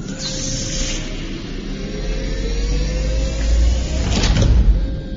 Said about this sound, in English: Airlock pressure is currently equalized. The airlock is empty. Open the inner hatch.